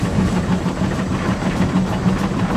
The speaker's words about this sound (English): You'd be on a disco train. I'm on a disco train.